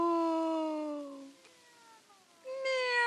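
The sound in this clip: Cat meowing in two drawn-out, tonal meows. The first is long and slides downward in pitch, and the second begins after a short, quiet gap.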